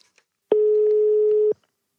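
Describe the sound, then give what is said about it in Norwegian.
A single steady telephone ring tone on a call placed into a studio: one loud, unbroken mid-pitched beep lasting about a second, heard alone between short silences. “To ring, det var bra. To ring, ja.”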